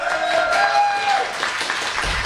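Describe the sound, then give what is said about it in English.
Applause from a live studio crowd welcoming a morning-show guest: dense, steady clapping that holds at an even level for about two seconds, with no clear voices. “How about a round of applause for her?”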